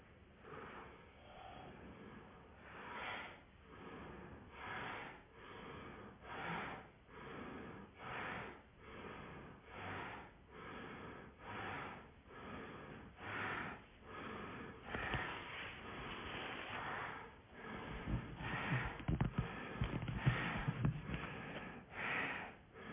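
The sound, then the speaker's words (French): Bhastrika bellows breathing, a yogic breathing exercise, comes through as many forceful nasal inhales and exhales in an even, steady rhythm, quiet and soft-edged, with no talk. “Et puis on va mettre en place le petit souffle de Bastrika, expansion, rétraction.”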